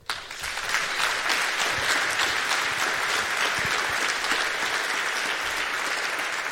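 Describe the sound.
An audience at a tech talk on building delivery robots applauds to welcome a speaker. Loud, even clapping starts abruptly and holds steady throughout.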